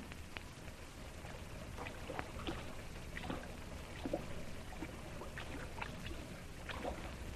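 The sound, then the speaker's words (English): Water lapping and splashing around a boat drifting alongside with its motor cut, a faint, steady wash broken by many small irregular splashes and drips. “Cut your motor, Chang. Just drift alongside. I'll take the wheel. You and Song, haul them aboard.”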